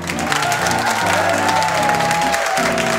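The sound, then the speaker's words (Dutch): A crowd of about 750 people applauds wildly and enthusiastically at a library event in The Hague, a thick, unbroken wash of clapping with scattered cheers mixed in. “U hoort hier een 750-koppig publiek wild enthousiast applaudisseren. Dat klinkt zo.”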